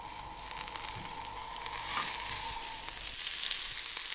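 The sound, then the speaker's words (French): Butter melts and sizzles in a pan around asparagus laid out like a nest, a steady crackling hiss scattered with small pops that swells slightly toward the end, with no talk. “Le beurre est en train de fondre.”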